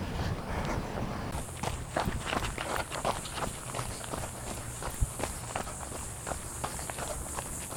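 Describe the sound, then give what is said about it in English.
Running footsteps of a person on Cedar Trail, heading southbound: a steady, even run of many soft footfalls, with no talking. “I'm trying to reground myself and settle back in to my run. I'm on Cedar Trail, heading southbound,”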